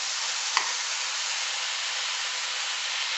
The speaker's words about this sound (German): Hört sich aber sehr gut an. Pfanne ist schön knallerheiß.